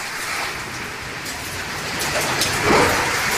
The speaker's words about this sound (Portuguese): Mais chuva. Esse é o som de São Paulo agora.